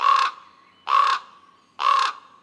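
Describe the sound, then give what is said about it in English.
Ravens give three harsh, raspy caws at an even, unhurried pace. Each call is loud, grating and clearly separated from the others by a short silence. “What about a conspiracy of ravens? Are they truly conspiring about something, or do we just perceive them as untrustworthy?”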